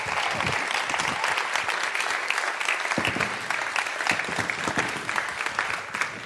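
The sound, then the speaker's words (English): An audience claps to welcome a speaker onto a stage. Dense, steady applause from many hands fills the whole stretch without a break. “give a massive welcome to my dear friend, Chris Barrett. Come on, put your hands together for Chris.”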